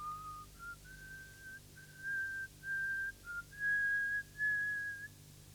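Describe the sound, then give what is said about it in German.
A woman whistles a thin, trembling tune out of boredom on a lonely railway platform, a string of clear held notes with short gaps that climb gradually higher, heard alone and fairly soft. “beginnt zu pfeifen, wie ein einsames Mädchen aus Langeweile vor sich hin pfeift”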